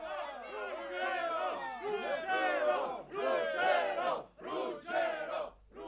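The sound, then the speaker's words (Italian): Moorish army cheering a warrior's name, many voices raising loud, overlapping shouts and cries that surge in a few waves, briefly dipping between bursts. “Fece perciò il suo nome, ed il guerriero fu preso contropiede dall'evviva che dall'armata mora scaturiva.”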